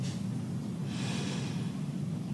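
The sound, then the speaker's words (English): Deep breathing in and out during a relaxation exercise: soft, airy breaths that are faint and heard alone, with one longer breath in the middle. “Take a deep breath in. It's comfortable. Exhale.”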